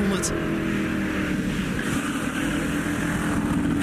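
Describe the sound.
A sports car with a straight-eight engine rated at 310 hp and a 290 km/h top speed, a fast car for its era, drives by with a steady, dense engine roar that holds loud for the whole stretch.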